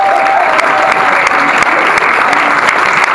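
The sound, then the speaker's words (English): Audience applause welcoming a guest onstage: dense, steady clapping that stays loud and even throughout, with a few sharper claps standing out from the wash. “Ladies and gentlemen, a round of warm welcome for Rob Salem.”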